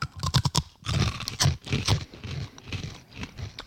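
Crunchy chewing of caramelised sesame sticks, a South Korean snack with a sticky sugar coating and sesame seeds, shaped like small broken churros. A quick cluster of crisp crunches is followed by irregular loud chewing bursts.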